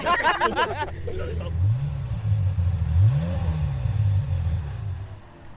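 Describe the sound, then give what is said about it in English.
A Ferrari 355 sports car engine revs, its low tone climbing and falling back a couple of times in steady swells, with voices at the start. “What is it? Ferrari 355 with the road safety vehicle at the back, which is a new thing”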